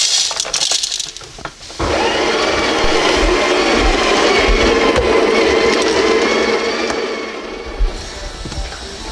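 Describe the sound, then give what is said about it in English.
An electric coffee grinder grinds roasted coffee beans with a loud, continuous, gritty whirring roar that starts abruptly, holds steady for several seconds, then eases off near the end. “Roasted coffee, we're gonna try it. All right, let's throw the old grinder.”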